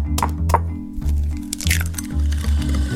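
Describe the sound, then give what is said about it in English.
Eggs cracked into butter and sugar for baking: two sharp cracks come first, then wet squishing and sliding sounds over a low droning background. “You add some butter, and then some sugar, crack in some eggs.”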